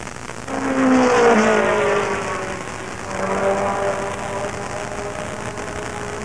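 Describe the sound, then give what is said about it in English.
Race cars at the Corporatopolis 500 roaring past: two engine passes, each swelling louder and sliding lower in pitch, over a steady wash of background noise. “Good afternoon, race fans. We're here for the 42nd annual running of the Corporatopolis 500. The top names in racing are here, and it promises to be a day of swift excitement.”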